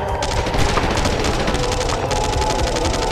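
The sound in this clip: Rapid, sustained automatic gunfire in a firefight around a ship's hatch: a dense, continuous volley of fast crackling shots that stays loud and steady throughout.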